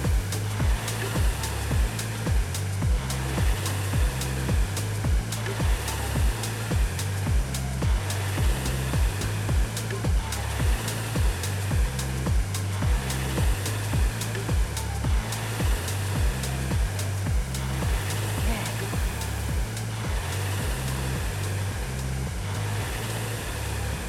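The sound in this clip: Whirring of a RowErg rowing machine's flywheel during a workout: a steady, airy whoosh that swells in regular low surges with each stroke and repeats many times at an even pace, with no talking.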